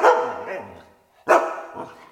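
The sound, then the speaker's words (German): A dog barks twice, two loud, sharp barks separated by a brief silence, the second trailing off into a shorter follow-up yelp. “Oh je, ich kann nur noch bellen.”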